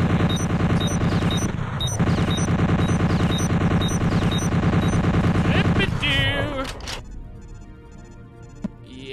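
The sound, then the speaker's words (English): Turret gunfire in a video game: a loud, dense, continuous rattle of rapid shots for about six seconds. It then cuts off into quieter scattered noise, with one brief sharp hit near the end. “what's behind here is absolutely turret gun. I am being riddled with bullets.”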